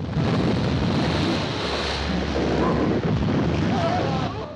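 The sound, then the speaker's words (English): A sinking ship with a smoking funnel slides stern-high beneath the sea, heard as a loud, steady rush and roar of churning water with bubbling as the surface breaks, continuous throughout. “Bubbles break the surface of the water as the Compass Rose disappears from sight.”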